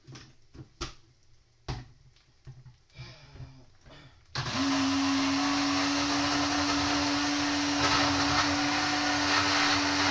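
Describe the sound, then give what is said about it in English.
A blender whirs through chopped tomatoes while a tomato sauce is cooked for spaghetti. A few clunks and knocks come first, then the motor kicks in about halfway and runs loud and steady with a constant hum to the end. “while I add another chopped tomato. I'm gonna start blending.”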